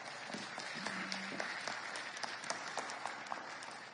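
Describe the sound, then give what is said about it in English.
Applause from an audience thanking a presenter, a fairly faint but continuous patter of many hands clapping for about four seconds, steady with small peaks. “Let's give her a hand.”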